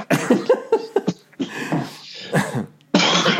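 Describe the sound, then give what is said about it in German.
Someone has a coughing fit into a microphone, with many harsh, breathy bursts. Several short, closely spaced coughs come first, then a few longer, rougher ones separated by pauses. “Und wenn du merkst, du musst husten, dann drehst du dich weg von diesem Mikrofon.”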